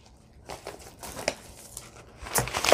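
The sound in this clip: Paper crinkling and rustling as material is folded by hand for a hidden-spine bookbinding project, several bursts of crisp crackle that grow denser and louder toward the end.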